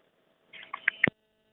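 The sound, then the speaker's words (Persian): A short burst of telephone tones sounds as a radio listener's call drops: a few bright electronic blips, ending with one sharp, louder tone. Silence comes before and after. “تماس این شنونده ما متاسفانه قطع شد”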